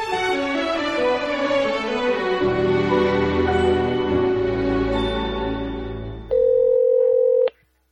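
An answering machine's beep: one loud, steady, mid-pitched tone lasting about a second. It follows a sustained, dense tonal passage that fades just before the beep.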